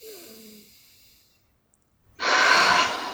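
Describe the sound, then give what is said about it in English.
A deep breath taken during a guided tapping exercise for a throbbing headache: a short quiet gap, then a loud, rushing, breathy inhale that fills the final second. “Deep breath.”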